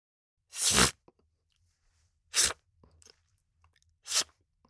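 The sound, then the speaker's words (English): Toilet paper tearing off the roll: three short, bright ripping bursts, evenly spaced with quiet gaps between, each lasting under half a second and heard on their own. “Toilet paper tearing.”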